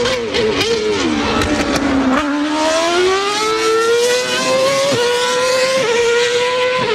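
Formula 1 race car engines revving in a loud, high-pitched whine. The pitch dips briefly before climbing steadily in a sustained, unbroken scream with slight wavering.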